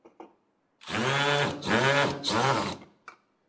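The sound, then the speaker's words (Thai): Power drill fitted with a Phillips bit drives screws, its motor whining loudly in three surging bursts with brief dips between them. A few small clicks come just before and just after. “สว่านหัวที่เป็นหัวสกรูไลแฉกนะครับที่ใช้ในการขันสกรูไลน็อตตัวนี้นะครับเสร็จแล้วเรามาร์กเกอร์เข้าไปในตำแหน่งที่เราต้องการนะครับแล้วก็ยิงสกรูไลเข้าไป”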